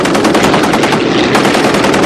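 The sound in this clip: Machine gun fire pours out in one loud, unbroken rapid burst during a fighter plane attack, a dense rattling stream of shots with no pauses.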